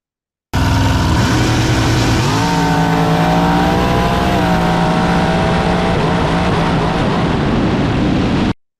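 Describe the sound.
A carbureted car engine revving on a run: a loud, sustained drone steps up in pitch after about two seconds, holds high, then cuts off abruptly.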